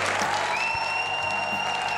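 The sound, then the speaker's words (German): A premiere audience applauds at an amateur theatre company's 25th production of a comedy. The steady, moderate clapping is crossed by a thin, sustained high tone. “Zum großen Vergnügen und viel Applaus des Premierenpublikums.”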